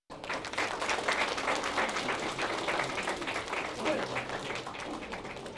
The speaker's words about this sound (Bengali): বাংলা সংস্কৃতির এই পরিবেশনা উপস্থিত সকলের বিপুল করতালি লাভ করে।